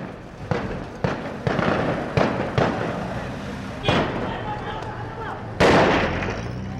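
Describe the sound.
Gunfire cracks across a city square near the central bank in wartime Iraq: several sharp, loud reports at irregular intervals, the last and heaviest near the end, with voices in the background.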